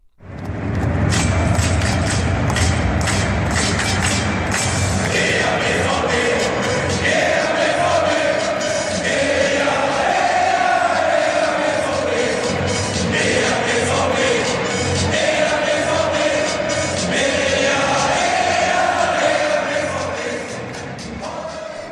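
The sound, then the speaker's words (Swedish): A large crowd of Borussia Dortmund fans chants 'Heja BVB' in unison. The loud, rhythmic, sing-song chant carries on steadily for the whole stretch. “Men de har faktiskt många andra ramsor också, varav den kanske mest kända är deras Heja BVB, som går så här lite klämkäckt.”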